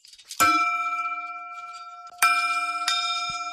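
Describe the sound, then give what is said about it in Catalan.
The bell of the Sant Joan hermitage being rung: three clear, bright strikes, each a ringing clang with a long, humming decay and a pause between them. “Doncs vinga, ho fem, toquem la campana, el batall, o com ho diguem, sí?”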